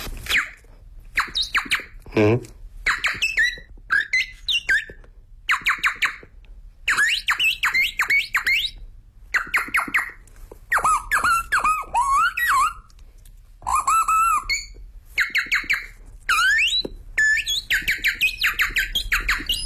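A performer vocally imitates many birds singing at once: rapid chirps, whistled trills and sharp squeaks come in loud, dense bursts separated by brief pauses, continuing for about twenty seconds with no speech.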